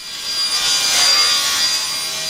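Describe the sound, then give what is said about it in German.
Saws cut wooden panels in a carpentry workshop, making a steady, loud, hissing rasp that swells slightly in the middle and runs on without pause, with no voices. “Holzplatten gleiten durch die Sägen, Späne fliegen durch die Luft, Kantholzstücke werden verschraubt.”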